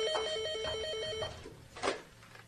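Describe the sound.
A telephone ringing in a household, a single rapid warbling burst of electronic trilling that cuts off after about a second, followed by a soft knock.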